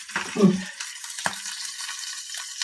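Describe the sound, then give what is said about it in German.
Food sizzles in a frying pan shaken near the end of frying to shed water drops, giving a steady soft hiss with a brief clatter near the start and a single knock midway. “wenn es ans Ende geht, der Bratzeit, dann schüttle ich als den Topf, damit die Wassertropfen runterfallen. Die Pfanne.”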